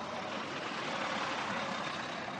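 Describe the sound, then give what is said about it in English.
City traffic on the streets of Boston makes a continuous, even roar of engines and tyres, with no single vehicle standing out. “the group takes on the first task of the day, navigating a few blocks of city traffic to reach the Charles River bike path.”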